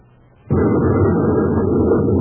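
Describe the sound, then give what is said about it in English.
A space grenade bursts among rocks, with flying rock chunks. A quiet moment gives way to a sudden loud blast that rolls on as a heavy, sustained low rumble until the end. “what was that? Space grenade.”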